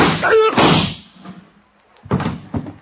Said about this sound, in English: Give me that gun. Yeah. We keep shooting the wrong people around here.